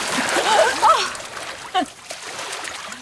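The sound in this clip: Water splashes and sloshes as a swimmer surfaces at the edge of an outdoor pool after swimming a length underwater, with short, faint splashes and a few brief vocal sounds.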